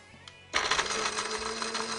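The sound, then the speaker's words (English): An electric spice grinder grinds cashews, half a batch at a time. After a brief quiet moment the motor switches on with a loud, steady, buzzing whir that holds to the end. “So I like to take the cashews, and you can use either a food processor or a spice grinder. So I'm just going to use this spice grinder and do half a batch at a time.”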